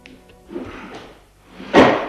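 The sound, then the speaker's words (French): A door opens in a tense moment for tired, frightened people who have waited a long time. Faint, low rustling comes first, then one short, loud knock-like burst near the end, with no talking. “la porte s'est ouverte enfin.”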